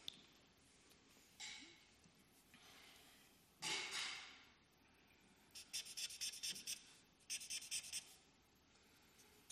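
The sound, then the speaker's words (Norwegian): Quiet pen-on-paper writing: a few scattered longer scratching strokes, then a quicker run of short, rapid scribbles near the end. “Men en ting de skulle finne ut som jeg glemte å skrive her, det skal jeg skrive nå.”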